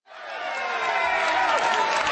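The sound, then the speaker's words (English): Staff in mission control cheer as the European spacecraft Rosetta signals it has woken from hibernation. Crowd noise rises quickly at the start and holds as a loud, steady roar of cheering and clapping. “Cheers ring out in mission control as European spacecraft Rosetta signals from 500 million miles away that it's awake after its 2.5-year hibernation.”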